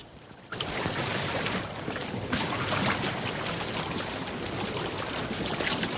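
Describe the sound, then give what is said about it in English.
Steady rushing water and wind noise as two inflatable boats are paddled away from a submarine at night. The hiss jumps up after a brief quieter start and then holds at an even level throughout. “He gives a farewell salute as the two inflatables are paddled away stealthily into the night.”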